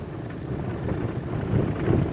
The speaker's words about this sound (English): vibration and background noise you hear is this rough gravel road